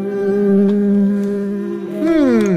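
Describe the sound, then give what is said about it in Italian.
A fly buzzes around a kebab, giving a loud, steady droning hum that holds one pitch, then wavers and bends downward near the end. “via mosca maledetta, via mosca da mio kebab, vai via!”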